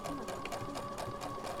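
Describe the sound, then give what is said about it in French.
A sewing machine runs steadily at a women's socio-professional workshop, giving a constant motor whine with quick, regular stitching pulses throughout the short clip. “Le son que vous entendez est le son d'une machine à coudre.”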